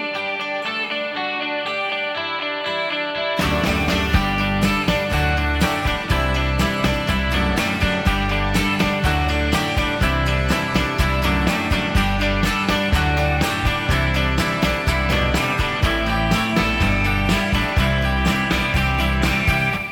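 An English rock band's recording plays: a quiet, thin opening gives way after a few seconds to the full band with jangling guitars and a steady driving beat, loud and continuous.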